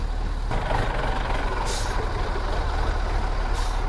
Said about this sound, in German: Also wir fahren hier gerade mit vielen Leuten und einigen Wägen auf das Gelände in Hochdorf,